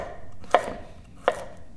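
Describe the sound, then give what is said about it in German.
A knife slices a halved carrot on a cutting board, making two sharp, crisp chops spaced under a second apart against a faint steady background. “habe ich hier schon mal die Karotte halbiert und dann in Scheiben geschnitten.”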